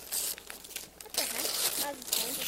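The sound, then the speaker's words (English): Kids rip the wrapping paper off a Christmas present, making a run of crinkling, tearing bursts at uneven intervals while voices talk over the paper noise. “Help me open this up. Let's see who's Christmas for. Go ahead. You can rip it. I don't want to drop it, but we can rip it. Go ahead, rip it.”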